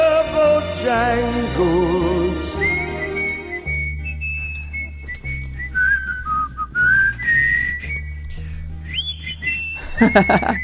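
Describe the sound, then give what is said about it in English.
A person whistles a tune live in a studio, a loud, bright melody with warbling trills and quick leaps between high notes, carried over a steady low musical backing with no talk. “He whistles up there. I can't hit those with my whistle.”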